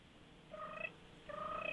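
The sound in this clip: A woodpecker gives two short, tonal calls separated by a brief pause, faint over a steady background hiss.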